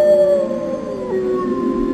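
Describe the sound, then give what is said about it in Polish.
A single long wolf howl in Poland, captured by a camera trap: a sustained, mid-pitched tone that slides gradually lower over two seconds above a faint hiss. “pan Marek Knobel, specjalizuje się w fotopłapkach i między innymi udało mu się tego wilka nagrać.”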